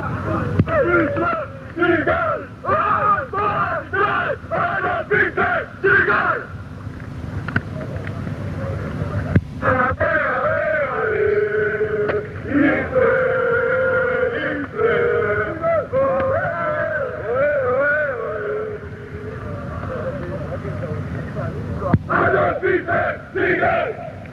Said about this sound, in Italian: questo è uno dei cori più beceri, li sento, li riconosco anche le voci di chi li fa, sono fatti proprio dal gruppo Brasato, che era un sottogruppo delle Brigate.